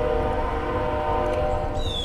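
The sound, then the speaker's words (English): A train passes near a house: a steady, loud rumble with a sustained tonal hum runs through the whole clip, with no talk over it. “if you hear the train in the background, that's by my house”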